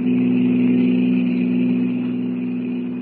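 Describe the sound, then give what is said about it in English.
Roadster engine racing at full throttle along a highway at night: a steady, low droning hum with a constant pitch that fades slightly toward the end. “With its powerful motor wide open, the roadster flies over the white ribbon of highway, its brilliant headlights cleaving the darkness.”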